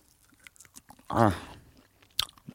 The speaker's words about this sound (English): I'm currently biting the reindeer snack.